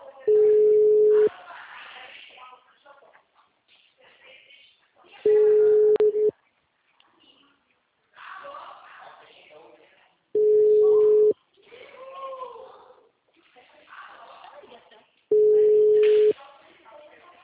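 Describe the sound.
A telephone busy signal sounds as four long, steady mid-pitched tone bursts, evenly spaced about five seconds apart, with a person talking in the gaps between them.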